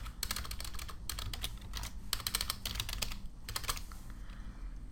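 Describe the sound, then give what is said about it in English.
Computer keyboard keys are pressed for copy-paste shortcuts, quick clusters of crisp clicks in several bursts with short pauses, fairly faint and alone. “Having problems hitting copy-paste here.”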